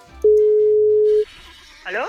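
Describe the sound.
A single steady, even ringback tone of an outgoing phone call to a mother sounds for about a second, followed by quiet and then a brief voice at the very end.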